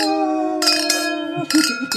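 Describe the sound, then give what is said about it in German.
Wine glasses clink together in a toast, leaving a clear ringing tone that hangs for over a second, broken by a few short, bright, noisy bursts. “Sollen wir nochmal anstoßen? Oh ja, genau.”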